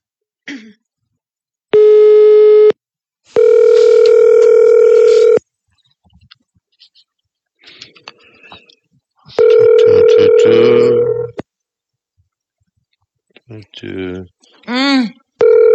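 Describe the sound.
Ringback tones from a telephone call that goes unanswered: three steady, even-pitched rings, the first short and the next two longer, with silent gaps and a few brief throat sounds and murmurs between them.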